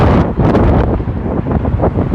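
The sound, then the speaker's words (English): Strong wind blows across the microphone as a loud, continuous low roar with gusty buffeting throughout and no voices. “probably a lot of wind.”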